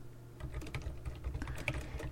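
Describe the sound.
Quick keystrokes on a computer keyboard as a message is typed, a soft, uneven run of many clicks, faint and alone with no talk.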